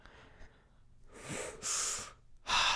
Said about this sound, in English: You don't need to copy me. Don't copy me when I breathe, please.